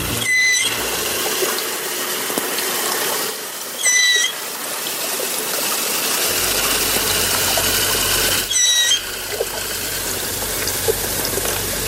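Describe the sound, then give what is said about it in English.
Dugong, a marine mammal, calling underwater: three brief, high squeaky chirps with a bright, layered tone, spaced several seconds apart over a steady hiss of water noise, with no talking. “What you just heard is actually the dugong, or what we call the cow of the sea.”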